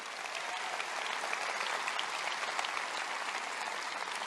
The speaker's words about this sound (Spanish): Dales un buen aplauso.